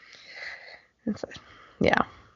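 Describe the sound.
Coughing from a woman whose nasty cough comes with a seasonal change: a few harsh, breathy bursts follow a stretch of talk.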